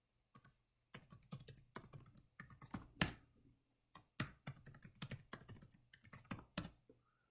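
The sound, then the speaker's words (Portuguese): Quiet, rapid clicking of computer keyboard keys as an SA administrator password is entered during a SQL Server setup, coming in quick bursts of keystrokes with a brief pause midway. “Entrei com a senha do SA que eu vou utilizar nesse servidor.”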